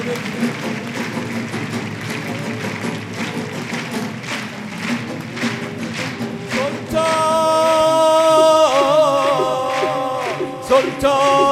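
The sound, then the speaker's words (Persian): Rhythmic hand clapping keeps steady time with devotional music honoring Imam Reza. The even beat continues under the music, and a bright sustained synth layer comes in partway through. “دست بزن بذار دست به امام رضا بگیریم.”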